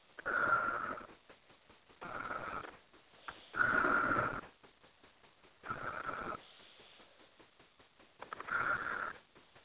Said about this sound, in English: take those three nice deep breaths